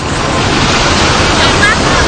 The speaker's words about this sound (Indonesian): Sampai dari kejauhan, ombak mulai datang.